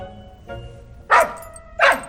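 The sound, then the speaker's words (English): A puppy barking indoors: two short, sharp, loud yaps spaced under a second apart, preceded by a fainter sound. “that dog can't bark in here”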